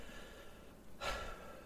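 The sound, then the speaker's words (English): A single deep breath, a short, airy intake midway through. It is faint and alone against a quiet hiss. “take some deep breaths here before I start reading this off”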